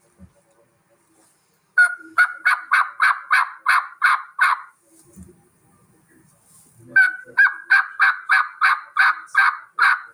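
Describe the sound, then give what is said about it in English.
A hunter's turkey call imitates hen turkey yelps. Two loud runs of many sharp, evenly spaced, high-pitched yelps are separated by a short quiet pause, with no talking. “how much to call to a turkey, how much not to call to a turkey. But I'll give you a rundown. So starting out, here's what my yelps would sound like.”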